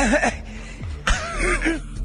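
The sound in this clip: Throat clearing to loosen phlegm, heard in the middle of a Spanish-language news reading: a couple of harsh, rasping throat bursts separated by a brief gap, fairly loud, with no words spoken.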